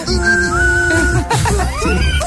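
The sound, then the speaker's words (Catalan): A person whistles in imitation of anger: loud, sustained whistled tones held steadily, then breaking into wavering, sliding bursts of whistling. “Com es xiula enfadat? Estic molt enfadat.”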